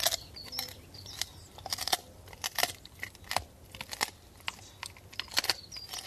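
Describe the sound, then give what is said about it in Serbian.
A dog crunches bones: many crisp, irregular cracks and snaps of chewing and biting, quiet overall, with no voices. “Kuca, na primjer, ovako krcka koske.”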